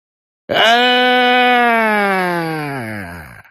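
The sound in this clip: An old man in a cave lets out a thin cry of pain. It is a single long, sustained wail that slowly sinks in pitch and fades out after about three seconds.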